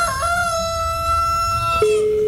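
A rooster gives one long, loud, harmonic crow that holds a steady pitch and then drops lower near its end, with no voices over it.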